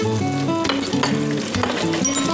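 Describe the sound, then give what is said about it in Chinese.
Loud, continuous sizzling of marinated beef slices sealed with oil being slid through hot oil in a wok, a dense crackling hiss with a few stirring noises over it. “咱们再接着滑牛肉。”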